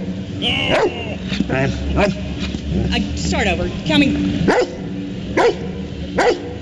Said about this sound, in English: Okay, this is the most awesome dog.